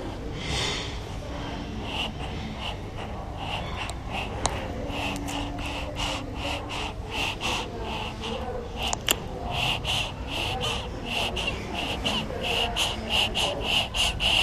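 Breathing and heartbeat of a newborn baby five minutes after birth: rapid, noisy snuffling breaths with many short clicking pulses, steady and fairly loud throughout, with no talk.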